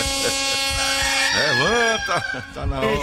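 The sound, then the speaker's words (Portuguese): A rooster crows at six in the morning, one long drawn-out call with a clear tonal contour, while a person talks over it. “Olha o galo cantando. O galo cantou, mas cantou às 6 e 11 da manhã.”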